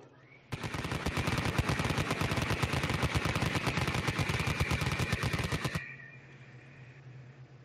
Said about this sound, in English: I'm going to spin up the good old Vulcan. Do it. For rapid fire.